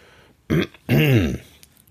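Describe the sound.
A male voice clears his throat while reading a German children's story aloud. Two gruff, voiced rasps, a short one then a longer one, are loud and stand alone.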